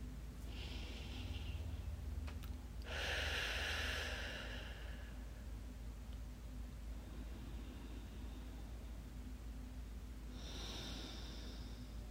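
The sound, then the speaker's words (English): Slow, deep breaths taken during a relaxation exercise, faint and airy, with a few drawn-out breath sounds separated by long quiet gaps. “First, Take some deep breaths.”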